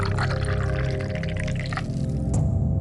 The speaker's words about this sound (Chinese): 手执酒壶，将壶内的酒倒入盏内，